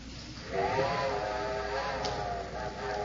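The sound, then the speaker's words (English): A steam train's whistle sounds a long, steady, slightly wavering tone over a hiss of steam, beginning about half a second in and holding to the end with no voices. “I'm afraid that's my train”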